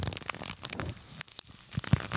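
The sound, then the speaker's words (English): An empty leather wallet, with no cards inside, is squeezed by hand to imitate a neck cracking. It gives off a series of irregular dry crackles and creaks with a few sharper pops, fairly quiet and with no talk over it. “And you've got a leather wallet in your hands. And he did that. You're squeezing.”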